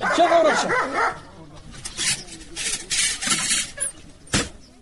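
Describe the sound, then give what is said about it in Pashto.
A dog barks several times in short, uneven bursts, mixed with voices. “سپی دی نیسه چې اومو نه داړي.”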